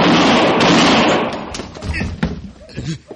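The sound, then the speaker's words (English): A gunshot in a Western radio drama: one loud blast rings out and decays over about a second and a half, then men's voices speak over scattered thuds. “He shot me, Marshal. I got a right to protect myself.”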